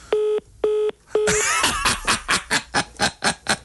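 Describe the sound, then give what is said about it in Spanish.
Three steady electronic beeps of a telephone call being cut off, evenly spaced and identical in pitch, followed by a run of rapid, rhythmic noisy bursts that take over after the third tone. “Se le cortó la llamada.”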